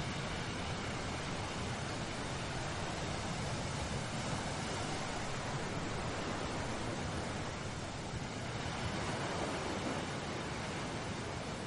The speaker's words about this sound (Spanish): El cielo está nublado y el mar encrespado.